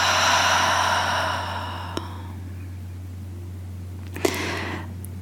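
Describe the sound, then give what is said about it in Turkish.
A deep, guided breath is drawn in through the nose and let out through the mouth as a soft, airy rush that fades over about a second and a half. A faint breathy puff comes later, over a steady low hum. “Benimle beraber burundan derin bir nefes. Ve ağzından bırak.”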